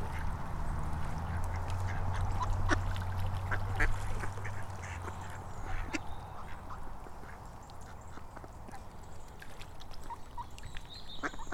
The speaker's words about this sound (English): I think it's about, what, 15 or 20 ducks.